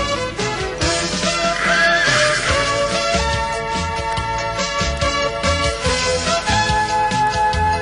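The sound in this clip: A horse neighs with a high, shaky whinny near the start, set over a dense, continuous layer of steady tones and rhythmic beats that runs through the whole clip.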